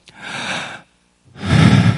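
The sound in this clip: A voice imitates someone gasping for breath while suffocating on a cross: two harsh, breathy gasps split by a short silence, the second louder and fuller than the first.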